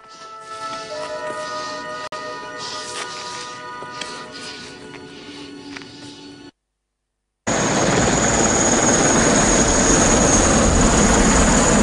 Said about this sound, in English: Daytime, a chopper hovers over the Russian fort.